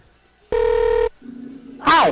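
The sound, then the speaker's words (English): A telephone call being dialed and ringing: a loud, steady electronic tone, then a lower, quieter tone, and a short voice at the very end. “Jim Brinson, it's dialing away.”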